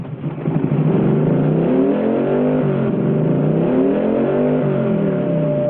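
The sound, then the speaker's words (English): A motorcycle engine revving as the throttle on the hand grip is turned. The loud, continuous drone rises and falls in pitch in repeated swells, with no talking. “In slow motion, Evil turns the throttle on the hand grips.”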